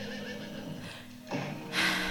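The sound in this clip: Horses neigh and whinny in a barn full of hay: a sustained, strained whinny, then a louder, brighter cry near the end, with no voices.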